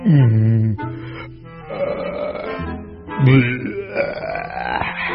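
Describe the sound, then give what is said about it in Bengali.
A voice imitates a few long, croaky belches after heavy overeating. The burps are low and throaty, drawn out, and separated by brief pauses. “একটা বড়, একটা মেজ, একটা ছোট্ট ঢেকুর পর্যায়ক্রমে তুললেন”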